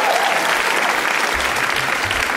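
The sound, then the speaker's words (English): An audience at a live show gives a round of applause for the evening's guests. Loud, dense clapping continues at an even level across the whole stretch. “Can we please give one more hand to all our guests tonight?”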